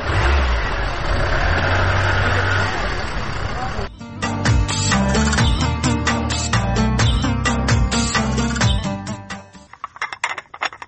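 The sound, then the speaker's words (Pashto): A car engine running with a loud, steady rumbling drone throughout, fading toward the end, with voices heard at times. “راځه چې موټر ته وخیژو.”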